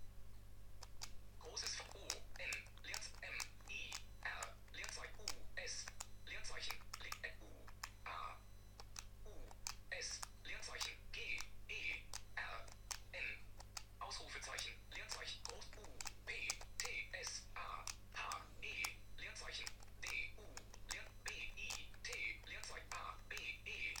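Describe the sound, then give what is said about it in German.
Keys pressed to open a text field, then typing: many quick, faint clicks and taps in irregular bursts, continuing steadily over a low constant hum. “Ich öffne mit Drücken von 7 und 8, das sind die einzigen länglichen Tasten, das Textfeld und schreibe.”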